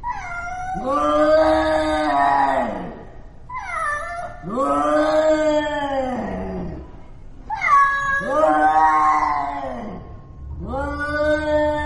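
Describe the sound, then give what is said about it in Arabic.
A cat meowing in loud, drawn-out yowls: four long, wavering cries with pauses between them, each lasting a couple of seconds, the last one cut off. “وسمعت صوت القطة”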